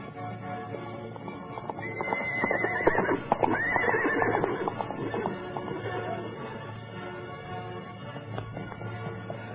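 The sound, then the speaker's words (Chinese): A horse gallops up with a guard riding it in urgent haste: steady rapid hoofbeats clip-clop throughout, and a loud whinny rises over them around the middle. “可在快到新郑时，一个侍卫十万火急的骑马赶来。”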